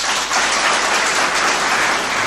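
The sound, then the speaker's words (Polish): A concert audience applauds a band playing banjolins, a saw and guitar, a loud, dense and continuous patter of clapping hands that holds steady throughout. “Proszę o brawo.”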